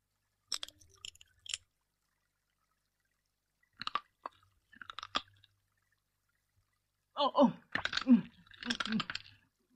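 Chewing sounds from a cartoon character eating a strange-tasting fruit: several short, crunchy, wet bursts of munching separated by pauses, with the longest and loudest run coming near the end.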